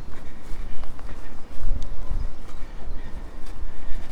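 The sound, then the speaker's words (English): Footsteps walk through fields on the way to Blackpool Sands, a steady rhythm of many soft, muffled steps over rustling ground. “I'm walking through fields on my way to Blackpool Sands.”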